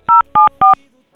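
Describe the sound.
Touch-tone beeps from a telephone number being dialed: three short, loud, evenly spaced tones, followed by near silence and a faint sound at the end.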